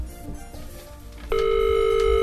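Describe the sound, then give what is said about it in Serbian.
A telephone ringing tone on a call placed to ask for someone, starting partway through as a loud, steady, unbroken tone that replaces the quieter background noise and continues to the end. “evo, zvoni telefon”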